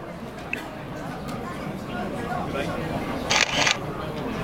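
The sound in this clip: Camera shutter of an OCR reading device taking a photo: one brief, bright click burst that stands out over a steady background hiss.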